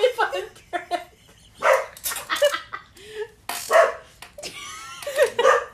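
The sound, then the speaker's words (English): A dog at home barks repeatedly as the owner's mother arrives, giving several short, sharp barks in uneven bursts with brief pauses between them. “Our mother just got home, so my dog is barking a lot. Literally was thinking of that outtake. I was like, excuse my dog.”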